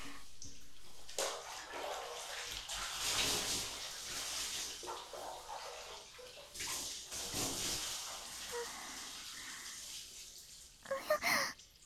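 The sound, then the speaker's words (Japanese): Bathwater is poured and splashed while someone's back is washed in a bath, making a steady, soft, continuous wash of running and sloshing water. A brief, livelier splash comes near the end. “あまり長湯はいけませんね。肌がふやけないうちに済ませてしまいます。お、背中も流しますね。”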